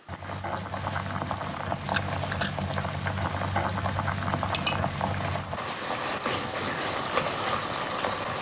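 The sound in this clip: Coconut cream simmers for a Thai curry, its oil already split, as curry paste goes in: a steady, dense bubbling and crackling with a few light clinks, holding an even loudness throughout while the texture shifts partway through.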